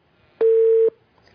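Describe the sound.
A single steady telephone tone sounds after a phone-in call is cut off: one clean, mid-pitched beep lasting about half a second, alone with no talk.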